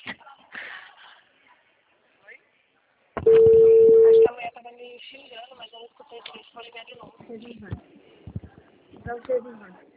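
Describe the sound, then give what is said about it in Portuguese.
A telephone being dialed to call someone back: one loud, steady tone lasting about a second cuts in among people talking. “vou ligar de novo”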